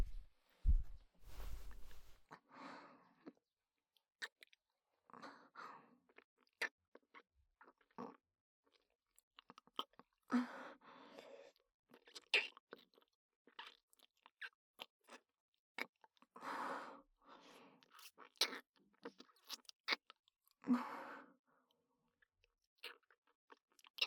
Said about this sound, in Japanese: はい、朝のベロチューさせていただきます。